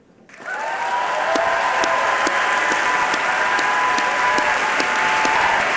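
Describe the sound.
Audience applause welcoming Arundhati Roy to a conversation at the Sydney Goldstein Theater in San Francisco, swelling quickly into dense, sustained clapping that holds steady for several seconds.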